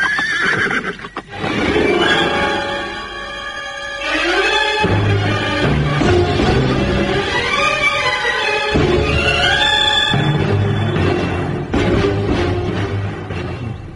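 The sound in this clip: Horses neighing, the mounts of soldiers on horseback, give loud, repeated whinnies with shrill, wavering pitch that overlap and continue through the whole stretch with no pause.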